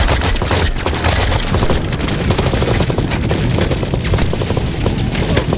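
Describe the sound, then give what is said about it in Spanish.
Suppressive gunfire from all sides, a dense, loud, unbroken barrage of overlapping shots and rapid machine-gun bursts that never lets up. “dónde vienen esos disparos? De todos lados. ¡Fuego de supresión!”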